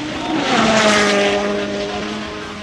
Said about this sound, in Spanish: Bien avanzando, se acerca a la zona donde nos encontramos, escuchamos el motor de Sebastián Ogier a través del micrófono de la RAP.